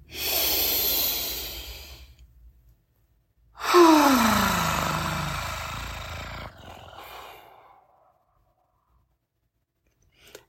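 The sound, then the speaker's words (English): Slow, deep human breaths as a few long airy inhales and exhales separated by short pauses, each swelling and then trailing off softly with no talk. “Let's start with a few deep breaths. All right, inhale.”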